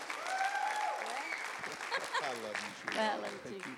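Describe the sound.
Applause from an audience welcoming a woman up to speak: sustained clapping mixed with cheers and voices calling out over it.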